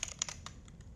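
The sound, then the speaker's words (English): Light, quick keystrokes on a computer keyboard as a name is typed into a new app, a run of soft clicks in an uneven rhythm, fairly quiet and with no voices. “And let's name it Growth Mountain.”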